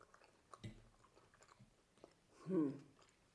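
Someone bites into and chews tofu sausages. Faint scattered mouth clicks lead to one distinct, fairly loud crunchy bite near the end, then quiet.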